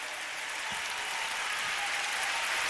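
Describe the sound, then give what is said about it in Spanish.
Applause at a church worship service, a thick, continuous patter of many hands clapping at moderate loudness that builds gradually toward the end. “Venimos a adorarte, Señor. Dale más fuerte ese aplauso.”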